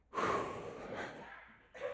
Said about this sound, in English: Take a big deep breath.